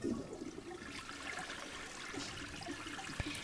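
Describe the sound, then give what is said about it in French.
Oil and then water are poured into crêpe batter, making a soft, continuous liquid rush and trickle. It is quiet and steady throughout, with no talking. “Bien, versez l'huile, puis environ 5 centilitres 5 centilitres d'eau.”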